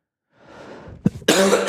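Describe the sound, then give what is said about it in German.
A single cough: a soft breath, a brief low thump, then a loud, raspy burst that ends abruptly. “Und ich werde diesmal auch wieder Husten schneiden müssen.”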